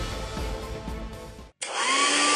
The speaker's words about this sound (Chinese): 哎，每次吹完头发又毛又斑，真闹心。 老婆，这是你吹风机没选对，派试手给你新买的戴森吹风机